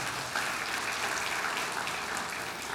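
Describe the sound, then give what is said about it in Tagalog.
A church audience applauds, clapping for the Lord during a sermon: faint, steady, even clapping runs through the whole clip with no speech. “Palakpakan natin natin yung Panginoon.”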